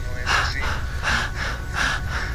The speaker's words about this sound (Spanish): Quien respira como yo lo estoy haciendo, y que quede claro, porque aquí está el problema de todos los días, no es así.